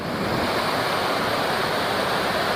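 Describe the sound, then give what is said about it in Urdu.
The Kumrat River, a branch of the Panjkora, rushes at the foot of mountains in Kumrat Valley, a steady, dense roar of flowing water with no breaks. “یہاں پہاڑوں کے دامن میں دریائے پنچکوڑا کی شاخ دریائے کمراٹ بہہ رہی ہے”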